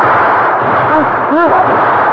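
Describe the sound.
Gunfire in a battle makes a loud, continuous roar of shots and blasts, with voices shouting over it.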